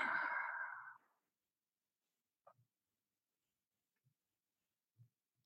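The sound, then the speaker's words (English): A slow exhale after a held deep breath: a soft, breathy rush that fades out after about a second. Near silence follows, broken by a few faint ticks. “Take a deep breath once again. Hold it and exhale.”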